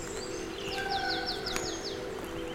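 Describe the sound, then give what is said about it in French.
Birdsong among a jumble of rocks: a rapid run of high, down-slurred notes rises clearly above a low, steady drone, then fades to a few faint calls. “je suis plutôt agréablement surpris par les nombreux chants d'oiseaux.”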